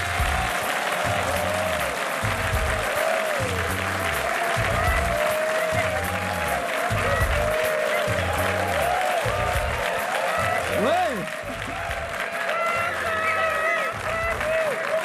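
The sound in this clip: Loud, sustained applause from a live audience welcoming a show's team in Burkina Faso: dense, even clapping from a crowd fills the whole stretch, with voices rising above it and a steady low pulse underneath.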